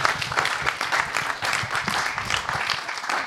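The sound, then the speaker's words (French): Audience applause: many hands clap in a dense, steady patter for about three seconds. “On peut applaudir”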